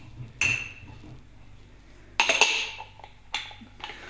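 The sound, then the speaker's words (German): Drinking glasses clinking together in a few bright, ringing strikes spaced well apart, each chime fading slowly, with no talk around them. “Die, die Gläser kennt ihr auch.”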